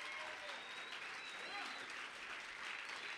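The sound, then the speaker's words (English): Applause welcomes a pastor onto the stage at a Texas church service: steady, dense clapping from a crowd that fills the whole clip without a break. “Let's give him a big hand. Give him a big Texas welcome.”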